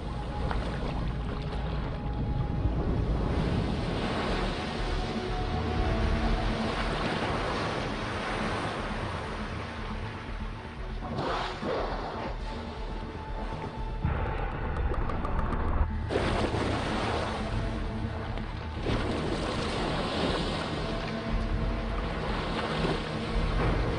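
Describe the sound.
Large waves, raised by whales to push a seal off its floe, wash over sea ice in a continuous rush of surging, splashing water. Several heavier swells break through the steady churning roar.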